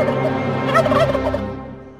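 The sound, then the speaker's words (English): A turkey's gobble, the call of a beady-eyed wild bird: one loud, rattling, bubbling call that lasts about two seconds and fades toward the end, with no voices. “that is the challenge issued by the beady-eyed bird”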